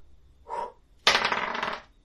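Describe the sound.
Dice rolled for an attack in a tabletop role-playing game: a brief soft rustle, then a sharp, bright clattering rattle lasting under a second before settling, with no voices.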